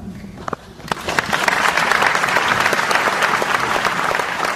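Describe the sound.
An audience applauds a response from George Will. After a short stretch of talk, loud dense clapping swells and then holds steady to the end.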